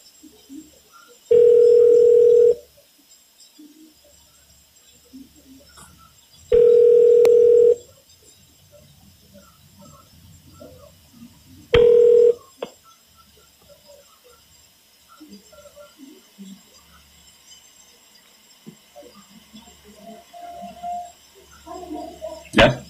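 An outgoing telephone call rings through three steady, single-pitched tones, two long and a shorter third, spaced a few seconds apart, with faint low murmuring and clicks in the pauses.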